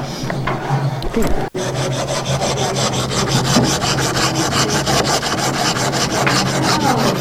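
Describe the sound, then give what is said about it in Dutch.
A saw cuts a block of marl stone straight. After a brief break, a steady, fast rhythm of many rasping strokes keeps up without pause. “Ik weet nog niet wat ik ga maken, maar eerst snij ik dit steen even recht.”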